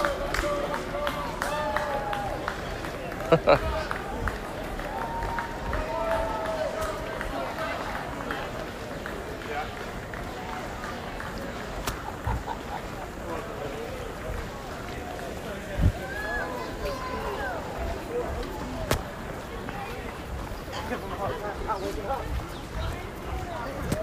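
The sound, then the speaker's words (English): Footfalls of a surge of runners passing during the Peachtree Road Race, a dense, steady patter of many feet that goes on throughout, mixed with crowd noise and people talking. “Oh, Group D is catching up with us now. Here comes another surge of runners.”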